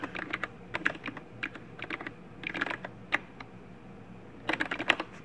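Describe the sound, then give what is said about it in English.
Typing on a computer keyboard while entering a host name: quick, light key clicks in irregular clusters with brief pauses between, no voices. “and it helps if I type the host name right”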